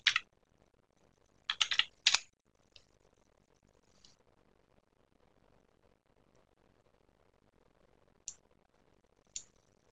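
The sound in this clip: Computer keyboard typing as a search entry is keyed in: a few short bursts of clicking keys near the start, then sparse single clicks spread across the rest, with no talking.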